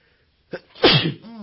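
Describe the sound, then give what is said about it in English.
A single sneeze, heard alone: a short, sharp intake, then a loud explosive burst that fades into a brief voiced trail. “Sorry, I feel like I'm about to sneeze.”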